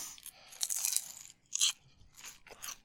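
Crunchy chewing of a Nutter Butter wafer sheet: a few crisp, bright crunches in irregular bursts with quiet moments between them, and no talking.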